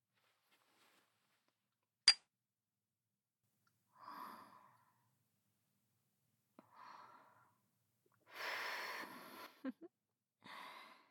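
Cigarette smoking opens with one sharp metallic click, followed by soft breathy inhales and a longer, louder exhale, all faint and separated by quiet gaps.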